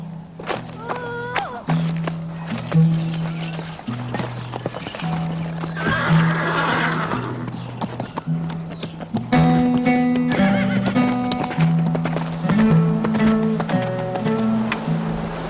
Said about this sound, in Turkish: Benim atımla git.